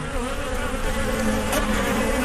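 Wasps buzz in a steady, unbroken drone with a faint higher whine, linked to summer in Algeria, with no voices and no pauses across the short stretch.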